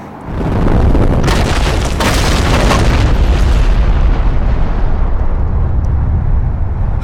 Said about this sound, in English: And a giant stone boulder destroys the platform.